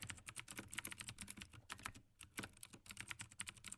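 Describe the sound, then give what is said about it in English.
Quiet ASMR typing on a computer keyboard by a scriptwriter: rapid, continuous keystrokes clatter in an uneven rhythm, with a brief pause partway through before the typing resumes. “You want to watch me write it? I mean, it's not exactly very interesting just sitting here watching someone type”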